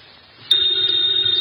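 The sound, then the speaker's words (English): A telephone bell rings: a sudden, loud, steady metallic ring starts after a quiet moment and holds an unbroken high tone to the end. “the ringing of that phone bell brings you mystery, adventure.”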